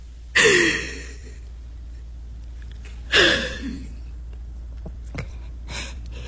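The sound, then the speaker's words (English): Deep breaths: two loud, airy breathing bursts come a few seconds apart, each trailing off gradually, followed by a couple of fainter breaths over a quiet low hum. “Just breathe. Take a deep breath”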